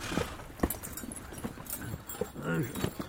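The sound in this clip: A horse's hooves clip-clopping on arrival at a castle, a run of sharp, uneven knocks through the whole stretch, with a brief voice-like tone over them near the end.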